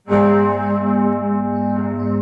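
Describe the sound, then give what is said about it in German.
Church bells of a basilica in Duderstadt ringing at noon: a loud, sustained bell tone with rich, lingering overtones that hums on steadily without a break. “5 Minuten lang läuten jeden Tag um 12 Uhr in Duderstadt die Glocken der Basilika St. Cyriakus, um Papst Franziskus zu gedenken.”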